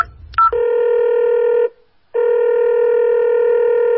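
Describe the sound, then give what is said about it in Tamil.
A telephone call being dialed and ringing: brief dialing beeps, then a loud, steady electronic ring tone that stops for a moment and resumes, with no voices. “அந்த நம்பருக்கு inspector phone பண்ண போது”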